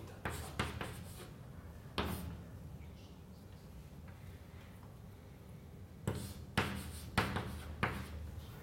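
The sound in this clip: Handwriting while working through a unit calculation: faint, soft scratching of a pen with short, sharp strokes in a few clusters near the start and end, quieter steady rubbing between them.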